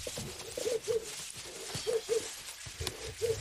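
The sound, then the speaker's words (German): A pigeon coos on Mallorca: three soft phrases, each of two low, rounded coo notes, repeat at a steady pace over faint background noise. “Das ist übrigens dieses Geräusch, das kennt ihr alle. Das ist weltweit fast gleich. Das ist eine Taube.”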